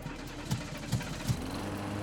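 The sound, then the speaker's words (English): A small rewired motor chugging to life, with three low thumping pulses spaced about half a second apart over a steady low rumbling hum, fairly quiet and with no voices. “A grin spread across his face as the motor chugged to life.”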